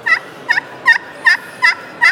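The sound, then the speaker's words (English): A friction turkey pot call held cupped in the hand and worked with a striker gives six sharp, high yelps at an even, steady rhythm, each a short raspy note alone over near silence. “So if you hold it cupped up like this, here's what that sounds like.”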